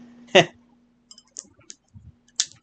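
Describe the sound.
Computer mouse clicking: a few short, sharp ticks scattered irregularly across a quiet background.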